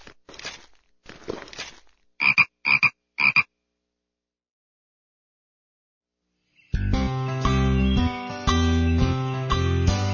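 A frog croaks: a few raspy, rattling croaks, then three short tonal croaks, followed by a pause before music begins and continues loud to the end.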